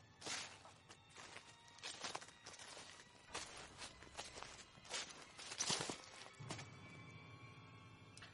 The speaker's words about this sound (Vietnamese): nghe có tiếng sột soạt như là tiếng chân người dẫm trong bụi lá vậy